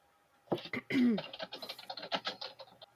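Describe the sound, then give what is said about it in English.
Fingers type on a computer keyboard in a quick run of light clicks while a voice talks over them. “What are you typing?”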